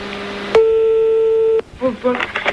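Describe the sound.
A telephone rings as a call is placed: one steady, mid-pitched electronic tone lasting about a second starts and stops abruptly, after a low hum and before a voice begins speaking.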